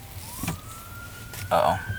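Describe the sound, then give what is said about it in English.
An ambulance siren: a thin, steady wail that slowly rises in pitch, faint beneath a constant noisy rumble, with a short louder burst near the end. “ambulance. Lord help whoever is hurt.”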